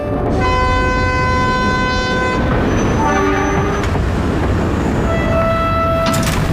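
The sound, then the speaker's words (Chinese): A train arrives at a railway station with a loud, steady rumble throughout. Sustained horn-like tones sound over it: one long tone at first, then a few shorter ones later. “准备下车了，检查一下自己行李。 列车到达海河火车站。”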